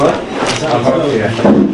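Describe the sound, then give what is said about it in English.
A door being pulled closed at a study session, a wooden rubbing and bump under ongoing voices that carry through the whole moment. “if we can just close the door, I can bother you for that.”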